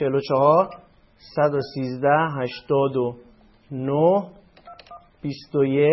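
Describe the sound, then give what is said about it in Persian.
Telephone dialing tones as a number is redialed, coming in several short bursts separated by brief gaps, with voice-like sounds mixed among them. “جدا تماس میگیریم، ریدیال بزنیم، شماره دیگه میگیریم”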